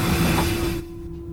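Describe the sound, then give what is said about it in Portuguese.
Broad rumbling noise of a train running on rails, with a steady low tone running through it. It is loud and even at first, then drops to a quieter, thinner level for the last half-second. “ouviu isso? O trem tá aqui, vem com a gente.”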